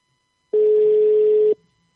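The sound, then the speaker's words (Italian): A telephone ringing tone as an outgoing call is placed: one steady, pure mid-pitched tone lasting about a second, then silence, with no voices. “proviamo comunque ora a chiamare il compagno”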